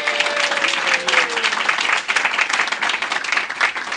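Audience applause at a live-to-tape railroad show, a steady, fairly loud wash of clapping from the crowd that holds throughout.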